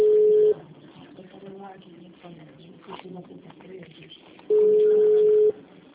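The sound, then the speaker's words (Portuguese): An incoming telephone call tone: two steady mid-pitched beeps, the first short and the second about a second long, with a person talking quietly between them. “tá entrando essa ligação aqui, peraí.”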